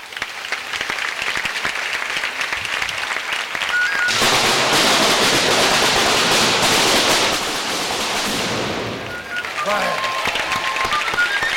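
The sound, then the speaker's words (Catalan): The fireworks finale at the Sitges festa major crackles as a dense, continuous barrage of rapid bangs that swells to its loudest through the middle, then eases back to a lighter scattered popping. “I això ha estat el final de festa que tenia prevista la pirotècnica.”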